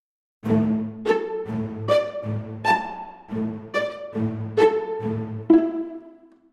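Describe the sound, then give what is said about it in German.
Pizzicato and plucked string instruments play a steady stream of many short plucked notes, with a low repeating bass pluck under higher melodic notes, clear and unaccompanied. “Um das zu verdeutlichen, habe ich Pizzicatis und gelegte Klänge von Streichinstrumenten eingesetzt. Das klingt so.”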